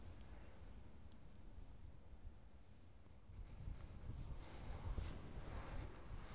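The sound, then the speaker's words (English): Breezy wind blowing outdoors on a hillside, a faint, steady, low rumbling hiss that gusts a little stronger in the second half. “I've made my way back out into the breezy weather”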